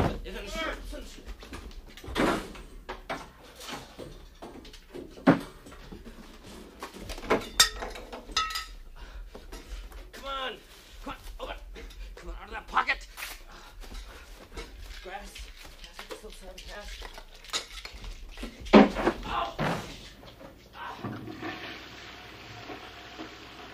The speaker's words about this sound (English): Where's the fourth one? There were five lids.